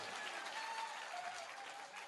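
Hands clap in a quick, dense, even patter, fairly faint and steady throughout, with no distinct pauses between claps.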